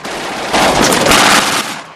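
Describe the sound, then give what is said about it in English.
A bomber's machine gun fires at a circling German fighter plane, a loud, harsh rattling burst of rapid shots lasting about a second over a constant roaring background. “Eugene fires at a circling German fighter.”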